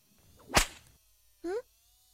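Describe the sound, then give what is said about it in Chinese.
A single loud, sharp whip crack snaps across the whole range and rings out for a fraction of a second during a lashing. A brief, high tonal squeal follows after a short gap of silence. “鞭子呀，狠狠地抽打，让它害怕你，这样以后才能驯服它。”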